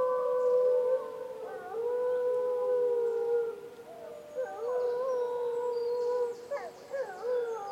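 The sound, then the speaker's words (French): Wolves howl in long, sustained, overlapping tones that bend and waver, several voices layered together and continuing loudly throughout, with brief dips between phrases. “C'est le loup qui hurle.”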